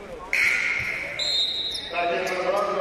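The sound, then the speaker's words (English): A basketball is dribbled on the court during a women's college game between Hastings College and Morningside, its bounces landing under a commentator's steady voice. “Rebound brought down there by Larson. And she dribbles the ball out of bounds on the far side.”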